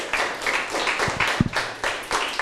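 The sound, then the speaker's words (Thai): Students in a classroom clap for a classmate in a dense burst of applause that pulses in a steady rhythm throughout, with a few low thuds near the middle. “เก่งมากเลยนะครับปรบมือให้เพื่อนหน่อยครับ”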